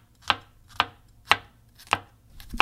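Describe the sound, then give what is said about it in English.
Garlic being sliced and crushed with a knife on a cutting board: sharp, evenly spaced chopping strikes, about five in a steady rhythm, each a crisp knock against the board with no talking. “All right, so the garlic is being crushed / sliced.”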